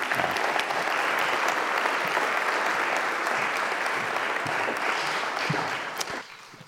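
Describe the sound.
Audience applause welcoming guests from Senegal: a dense, steady wash of clapping that holds evenly for about six seconds, then thins out at the end.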